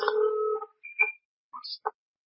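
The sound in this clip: A telephone ringing with a short electronic tone pattern: one longer tone, then a few brief beeps at varied pitches, fairly faint with silent gaps between them.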